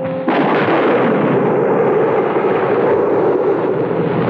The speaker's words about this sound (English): As the pinpoint of sunlight reached the percussion cap, the gun exploded as though the trigger had been pulled.